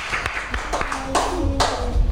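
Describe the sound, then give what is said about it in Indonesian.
Children clap together in a short, uneven patter of sharp hand claps, a few strong claps standing out, mixed with overlapping voices and chatter. “tepuk tangan”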